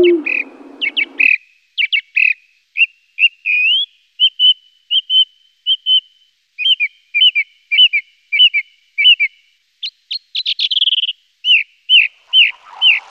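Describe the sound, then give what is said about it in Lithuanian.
A song thrush sings loud, clear whistled phrases. It repeats each short motif several times before moving to a new one, with brief pauses between the bursts of song. “Strazdas giesmininkas, kaip ir lakštingala, yra viena iš tų paukščių rūšių, kurie turi bene patį gražiausią Lietuvoje aptinkamą paukščių balsą.”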